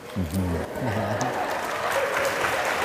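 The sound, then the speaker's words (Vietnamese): Audience applause at a teaching session, praising a student's sincere confession: a voice speaks briefly at the start, then steady, full clapping carries on to the end. “Các bạn vỗ tay đó thể hiện cái sự tán dương về lòng chân thành và bản lĩnh thú tội.”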